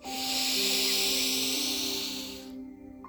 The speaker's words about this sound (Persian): حالا با هم نفس سوم رو انجام میدیم.